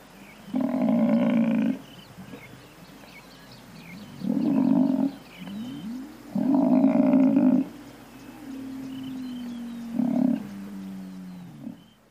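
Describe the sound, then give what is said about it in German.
A buffalo in the savanna gives four deep, rough, grunting calls separated by pauses, the last one shortest, with a quieter tonal call between them. “Und wenn man die Ohren offen hält, dann hört man vielleicht auch den Büffel selbst.”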